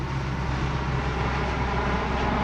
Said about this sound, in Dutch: De donkere benzinewalmen achter het vliegtuig, inmiddels behoorlijk laag.